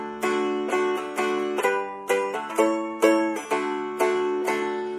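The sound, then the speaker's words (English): Strummed chords from an unamplified acoustic swing bar guitar ring out alone in a steady, even rhythm. Each bright strum decays before the next, with many strums in a row. “So the natural sound of the swing bar guitar is like this.”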